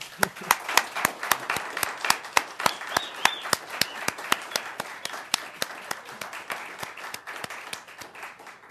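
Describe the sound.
Audience applause at the close of a community forum: many sharp claps in a fairly steady, rhythmic patter that keeps going for nearly nine seconds at moderate loudness.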